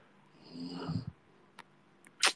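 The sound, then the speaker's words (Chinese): A person snoring: one low, rumbling snore that builds and then cuts off, followed by a few faint clicks and a sharper burst of noise near the end, with no talking. “这个呼噜确实啊，一会儿有，一会儿没有啊”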